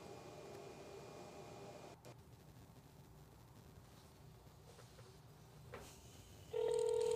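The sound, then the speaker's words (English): A telephone number from a flyer is dialed in a video: a faint, hissy line gives way to a steady, louder tone near the end. “Here's what it sounds like. Person's dialing on the video.”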